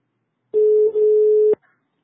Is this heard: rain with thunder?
no